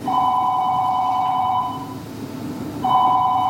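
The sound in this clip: A telephone rings in a stage production, with two bursts of a steady, bright electronic ring separated by a short pause. The second ring is cut off at the end, and nobody speaks.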